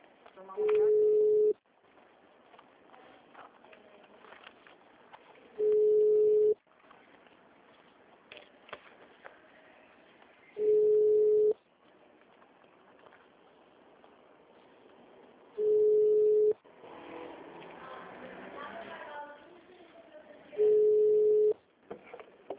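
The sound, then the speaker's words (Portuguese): Ringback tone of an outgoing telephone call: five steady, low electronic tone bursts, evenly spaced about five seconds apart, with faint muffled voices and noise in the gaps. “Tô ligando pra ela”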